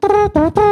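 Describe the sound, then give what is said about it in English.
A beatboxer who sings a cappella bass imitates a trumpet with the voice: three short, bright, brassy notes in quick succession, the middle one slightly lower in pitch. “I do like a cappella bass with vocal percussion with different sound effects, like a trumpet”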